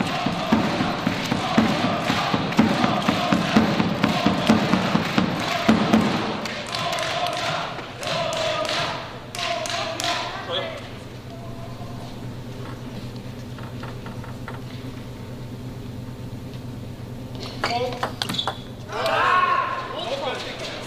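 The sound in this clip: A table tennis rally in a competitive match: quick, regular ball strikes on paddles and table rattle off for about six seconds, then give way to a commentator talking over faint crowd murmur, with a few more isolated taps.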